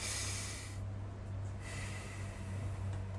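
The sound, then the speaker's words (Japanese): Slow, airy breaths demonstrate a calming 3-3-6 breathing pattern: soft hissing airflow, a brief quiet gap, then fainter, longer breathing that continues to the end. “っていうふうに336呼吸448呼吸入れればいいんですね”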